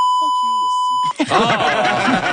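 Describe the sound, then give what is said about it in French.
A censor bleep covering a swear word: a steady, piercing, high electronic tone lasting about a second, laid over speech that can still be heard beneath it. It cuts off abruptly and normal talk follows. “On l'entend parler. Ça enlève un petit peu l'utilité du bip, si vous voulez mon avis.”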